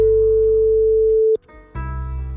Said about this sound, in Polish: Zadzwonię teraz do pani Lidii.